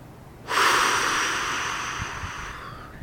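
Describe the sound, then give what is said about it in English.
A long, breathy exhale through the mouth as part of a slow breathing exercise. It starts abruptly and rushes out loudly, then gradually fades over about two and a half seconds. “And then you breathe out through your mouth initially,”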